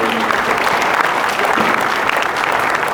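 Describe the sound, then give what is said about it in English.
Audience applause welcoming a couple to the stage, a loud, dense and even clapping that carries on unbroken for the full three seconds. “Please welcome this amazing couple that's organized.”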